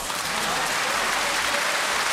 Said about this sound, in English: Round of applause.